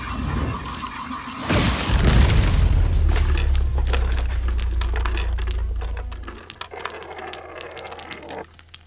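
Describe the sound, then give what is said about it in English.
A chessboard explodes mid-game: one sudden loud blast, then a heavy low rumble with scattered crackling and shattering debris that holds for several seconds before cutting off, leaving a few faint clicks. “You didn't see a path to victory, so you exploded the chessboard.”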